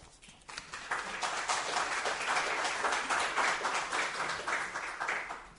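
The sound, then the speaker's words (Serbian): Audience applause fills about five seconds with dense, even clapping that holds at a steady level after a slightly quieter start. “Hvala, ima puno ovoga, pa nemojte mi mnogo pljeskati.”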